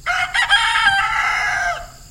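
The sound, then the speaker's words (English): A rooster crows on a dairy farm outside Monroe, Wisconsin, one loud call of about two seconds: stuttering opening notes, then a long harsh held tone that drops off at the end. “A rooster is one of the few barnyard animals left at Weilemar Farms outside Monroe, Wisconsin.”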